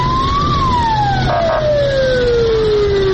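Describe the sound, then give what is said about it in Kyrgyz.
Fire engine siren as fire trucks drive through the streets disinfecting them during a quarantine, a loud wailing tone that rises briefly, then slides steadily down in pitch over a constant rumbling background. “Ага өрт өчүрүү унаалары тартылып, көчөлөрдү кыдырып чыгышты.”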